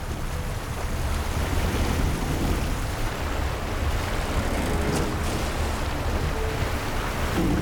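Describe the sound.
Rushing water surrounds a rowing boat swept toward river rapids: a steady, loud, broad roar of churning current with no distinct oar strokes or voices.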